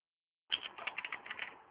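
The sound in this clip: Quick keystrokes on a computer keyboard as a web address is typed. A brief silence gives way to a dense, steady run of many light clicks.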